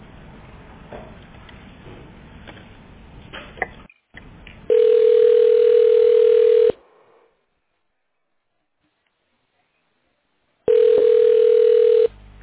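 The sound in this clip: A telephone line tone plays while a call is transferred: two long, steady, mid-pitched tone bursts separated by a stretch of silence. Faint, irregular line noise comes before the first burst.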